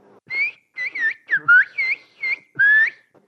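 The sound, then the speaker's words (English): Whistled Turkish from a single whistler, who whistles the phrase asking for one kilogram of tomatoes as a rapid string of short, bright, high whistled syllables with bending, gliding pitch and brief gaps between them. “If I wanted to ask for 1 kilogram of tomatoes in Turkish, I'd say, Bir kilo domates lütfen. Which in whistled Turkish would be,”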